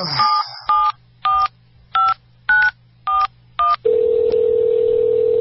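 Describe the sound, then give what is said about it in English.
A telephone number dialed on a touch-tone phone: seven loud, evenly spaced beeps of varying pitch, then a steady, continuous line tone. “Give me your phone. I need to make a call.”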